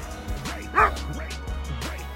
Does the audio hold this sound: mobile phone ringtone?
no